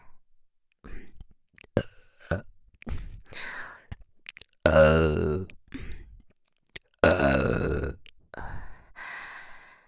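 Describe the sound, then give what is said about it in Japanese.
Crude burps made close to the microphone: softer clicks and breaths lead into two long, loud, gurgling burps with a deep throaty tone, separated by quieter mouth noises. “こういう下品なゲップが欲しかったんですよね。”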